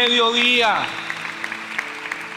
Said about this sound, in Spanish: Denle un aplauso a Jesucristo.